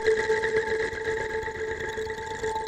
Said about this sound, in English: I wonder what happens when we do the morph wheel on this.